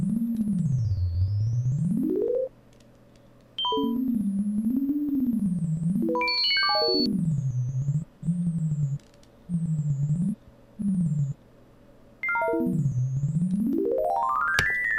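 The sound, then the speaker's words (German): Sine tones translated from the voltage fluctuations of an aloe vera plant form a single pure tone that glides and wobbles up and down, sweeping steeply high and low, broken by a few brief quieter pauses. “Was man gerade hört, ist das Ergebnis einer unserer ersten Messreihen vom 25. Oktober 2004. Wir hatten eine Aloe Vera angeschlossen, etwa 3 Stunden gemessen und die Spannungsschwankungen in Sinustöne übersetzt.”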